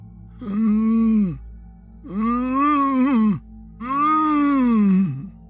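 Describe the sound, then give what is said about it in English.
Three long, muffled moans from someone whose mouth is taped shut, each a wavering, strained groan of a second or more with short pauses between, loud and alone. “It sounded like someone who was trying to communicate while having their mouth taped shut.”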